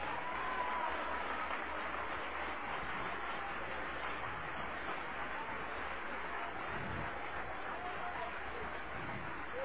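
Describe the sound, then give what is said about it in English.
A church audience applauding during a sermon, heard as a faint, dense, even wash of clapping that holds steady for the whole stretch. “Trust and be not afraid. Oh, applause, applause, applause.”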